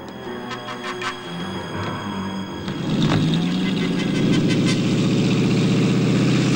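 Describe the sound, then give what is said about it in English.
A small motor launch's engine runs at a jetty, a steady mid-pitched rumble with a droning hum that grows louder and rougher about halfway through. “They walk down the steps of the jetty onto the small motor launch.”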